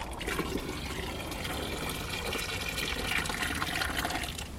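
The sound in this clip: Water runs steadily while seeds are rinsed through a fine conical strainer, a continuous, even splashing hiss with no breaks and no voices.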